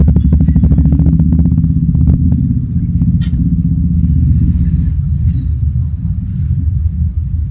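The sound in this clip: A Honda Grom motorcycle ridden wide open under clutch control gives a loud, steady low engine rumble throughout, with a few brief clattering ticks early on.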